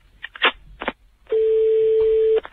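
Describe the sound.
A telephone call is dialled: a quick run of short keypad beeps, a brief gap, then one long, steady tone.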